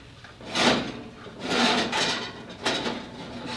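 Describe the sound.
A tray of cookies is pulled from an oven: three broad scraping, sliding bursts of metal and rack movement, each lasting a fraction of a second to about half a second, with no talk.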